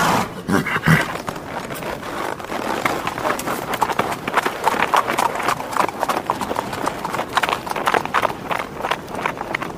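Horse hooves clip-clop in a rapid, steady stream of many sharp hoofbeats that continue without a break across the whole clip.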